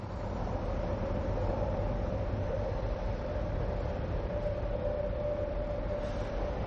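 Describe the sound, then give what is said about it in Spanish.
Subway train leaving the platform: a loud, steady rumble with a sustained whine running through it from start to finish. “El metro se va.”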